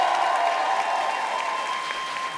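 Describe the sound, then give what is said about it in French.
Audience applause greets a first-time guest at a live evening show, a steady, dense patter of clapping that holds evenly for a couple of seconds and then eases slightly. “Faites du bruit pour Julien un petit peu pour mettre un petit peu.”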